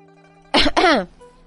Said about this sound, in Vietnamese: Bên ngoài bình phong truyền tới tiếng ho nhẹ.